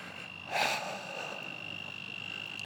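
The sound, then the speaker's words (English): A frog gives one short, faint croak, then a steady high insect-like drone continues alone. “Man, that is a frog going right there.”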